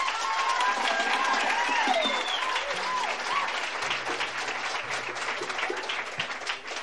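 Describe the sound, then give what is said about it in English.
Audience applause welcomes a musician onto the stage at a bluegrass show, a steady, dense clapping that holds throughout, with a few high whistles and cheers early on. “Would you all put your hands together and welcome Mr. Glenn Duncan.”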